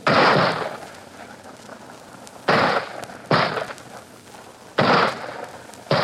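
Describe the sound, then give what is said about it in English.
Mortar shells fired and exploding in combat against communist positions: several sharp, loud blasts spaced a second or more apart, each opening with a crack and fading into a low rumble over background noise. “And behind them, the men with mortars, lobbing in their shells.”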